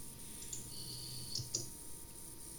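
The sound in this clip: Typing on a computer keyboard during a Skype meeting: a few soft, sparse clicks sound faintly over a steady background hum.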